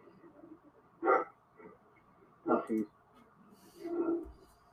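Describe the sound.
Two big dogs barking at someone walking by the house: a few faint, separated barks, including a quick double bark, over a low murmur.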